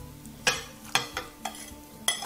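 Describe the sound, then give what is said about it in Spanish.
Beaten eggs being stirred with caramelized onion and potato for a Spanish tortilla: a utensil scrapes and knocks against the bowl in several sharp, irregular strokes, with soft swishing between them. “5 huevos, una cebolla, 800 gramos de patata. La vamos a echar aquí.”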